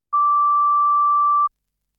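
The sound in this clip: A single steady electronic beep sounds as a prompt to start recording a product review and rating. It is one clean, mid-high pitched tone held for over a second at an even loudness, then it stops into silence.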